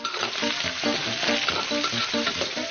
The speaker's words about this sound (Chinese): 烟熏腊肉切片煸香，加入红辣椒，